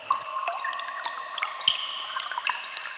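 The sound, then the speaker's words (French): Water drips and trickles down the damp walls of a cave in many quick, bright plinks at scattered intervals. A thin watery wash sits beneath the drips. “Dans la grotte, il fait humide. Les parois de la grotte ruissellent.”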